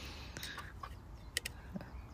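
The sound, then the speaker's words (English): Hungry, hand-reared chickens cluck after a night shut in the coop. A few faint, short clucks and chirps rise over a low, steady background rumble. “They're lovely little birds. And they're very hungry because they've been in the coop all night.”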